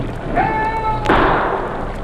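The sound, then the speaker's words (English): A single sharp gunshot rings out from a boat at the end of a dock, a sudden loud crack midway through that decays quickly over a low background rumble. “Shot come from boat at end of dock, perhaps.”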